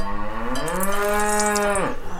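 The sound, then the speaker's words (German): A dairy cow moos on a mountain pasture in the Abruzzo region of central Italy. One long, loud, deep moo holds for about two seconds, then drops in pitch as it ends. “Hier werden die Kühe gemolken.”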